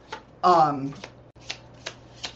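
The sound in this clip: Tarot cards are shuffled in a quick riffle burst, followed by a few soft taps and clicks as the deck is squared.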